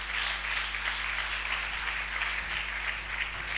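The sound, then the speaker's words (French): A church audience applauds Jesus during a service, giving a steady, dense hiss of many hands clapping at an even level, with a low electrical hum beneath it. “On acclame encore Jésus.”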